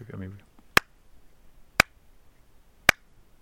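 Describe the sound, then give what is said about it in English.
Hand claps in an anechoic chamber: three sharp, thin, very dry claps spaced roughly a second apart, each cutting off at once with no lingering tail, after a brief voice at the start. “it sounds wrong, right? It doesn't sound like a person clapping. It's too thin or dry. Everything disappears.”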